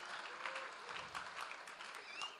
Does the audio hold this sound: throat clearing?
no